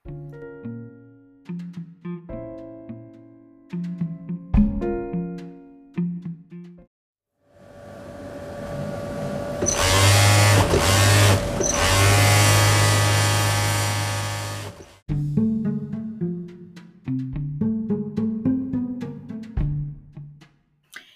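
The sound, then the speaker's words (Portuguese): A time machine being adjusted gives off a steady electronic whirring hum with a sustained tone, lasting several seconds between stretches of music. “Dora faz alguns ajustes na máquina e todos esperam que ela vá para o ano certo dessa vez.”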